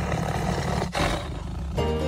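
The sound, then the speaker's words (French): A tiger growls in a deep, loud, rasping rumble that runs almost continuously, breaking off briefly near the middle before resuming. “Feulement de tigre pour se mettre dans l'atmosphère de Fauve, le dernier roman de Mélissa D'Acosta paru chez Albin Michel.”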